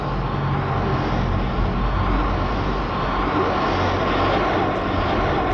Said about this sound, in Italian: Un'astronave gigantesca viene dritta su di me. Ha una velocità incredibile.